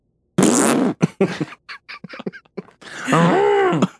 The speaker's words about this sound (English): It's not just a whoopee cushion. It makes a bunch of noises, it turns out.